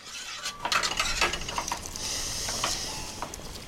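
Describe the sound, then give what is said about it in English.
Kitchen sounds of a garlic clove being snapped and a pan being stirred: a cluster of light clicks, taps and scraping rattles, then a quieter steady hiss. “Then he goes back to what he's doing, snapping off a garlic clove and stirring a pan.”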